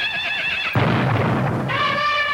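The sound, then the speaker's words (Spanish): A horse neighs: a loud, wavering whinny, then a burst of rough, breathy noise, then a second whinny at the end. “El caballo. Dije caballo.”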